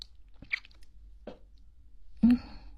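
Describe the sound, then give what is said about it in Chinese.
Soft, wet licking sounds on something soft: a few brief smacking mouth noises spaced apart, faint overall, with the last one slightly louder and longer. “不管了，偷偷的舔一下。”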